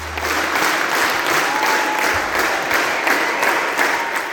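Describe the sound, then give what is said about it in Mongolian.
An audience at the Sydney Opera House applauds a Mongolian morin khuur ensemble after its performance. Thick, even applause fills the whole span at a steady loud level. “Энэ бол Сидней дөрийн театрт Монголын морин хуурын чуулга бүрэн бүрэлдэхүүн нэрэ анх удаа тоглоход нийт үзэгчдийн илэрхийлж байгаа сэтгэл хөдлөл.”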